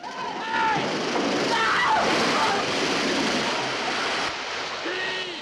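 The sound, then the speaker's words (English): A torrent of water floods a ship in a dense, continuous rushing roar of splashing and sloshing, loud throughout, with voices heard briefly near the start and end. “Baker fights his way back down. He's swept away by a torrent of water.”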